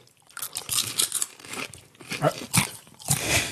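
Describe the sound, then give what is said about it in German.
Crunching of a snack being chewed, with many loud, dry, crackly bites coming in an irregular rhythm and short quieter gaps between them. “Also wir haben auch, wenn man es hört, Crunch. Ist völlig anders.”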